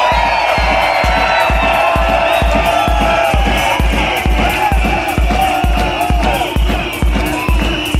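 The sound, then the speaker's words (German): Loud cheering and whooping from a large crowd at the Love Parade 2006 in Berlin, a dense, continuous roar of voices over a steady thumping beat that runs throughout. “das, was ihr hier im Hintergrund hört, das kommt aus einem YouTube-Video von der Love Parade 2006 in Berlin.”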